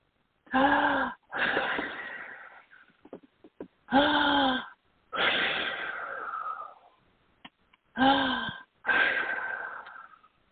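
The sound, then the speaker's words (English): Three deep breaths taken during a spiritual breathing exercise, each a short, raspy, voiced inhale followed by a longer sighing exhale. The breaths are loud and evenly spaced, with brief quiet gaps and no talking. “Okay, take those three deep spiritual breaths now.”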